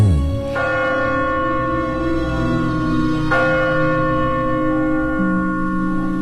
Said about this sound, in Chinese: 当新年的钟声敲响以后